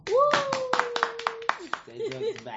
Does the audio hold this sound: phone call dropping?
no